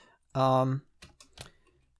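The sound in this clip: Typing on a computer keyboard: a few quick, sharp key clicks follow a brief hummed vocal tone, with quiet gaps between the taps.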